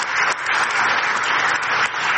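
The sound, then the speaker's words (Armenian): Dense applause from an audience after a speech at an international conference, continuous loud clapping with no pause throughout. “Հետազոտական կենտրոնի ղեկավարն ըստ էության աղքատ երկրների անունից էր խոսում, ելույթը ծափահարություններով ուղեկցվեց։”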